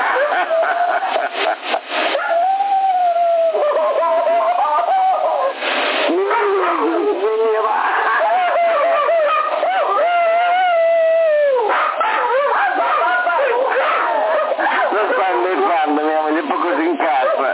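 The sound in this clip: A dog barks, yips and howls over a narrow-band CB radio channel. Its wavering calls come through amid near-constant talk on the channel.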